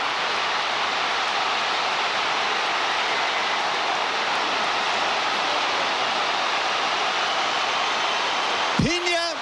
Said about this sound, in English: You can really hear the thrill and even the shock of the crowd.